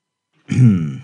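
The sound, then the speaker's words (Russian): A man clears a scratchy, irritated throat with effort: a single short, rasping, grunt-like vocal burst, fairly loud and alone. “с трудом прочистив запершившее горло”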